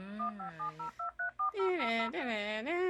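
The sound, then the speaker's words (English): Telephone dialing: a run of short, clipped dual-tone DTMF beeps, followed by a loud, sustained warbling tone that wavers up and down in pitch. “hit that dial up tone”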